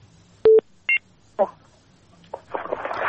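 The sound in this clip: A telephone call connects on a radio phone-in line: two short electronic dialing beeps, then crackly line noise with brief bursts that build toward the end.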